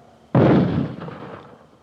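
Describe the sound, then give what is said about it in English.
A mortar firing about 40 feet behind: a single sudden, loud, booming blast that rolls off in a rumbling decay over about a second. “that was, mortars. It just fired maybe, 40 feet in back of me.”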